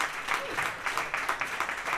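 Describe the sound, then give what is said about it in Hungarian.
Applause from an audience at a music event, a steady, fairly faint patter of many hands clapping throughout without pause. “Egy nagyon nagy tapsot akart kívánni.”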